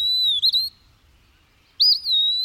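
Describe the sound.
An eastern wood-pewee sings in a South Carolina backyard: two clear, high, slurred whistled phrases separated by a pause of about a second, with nothing else around them.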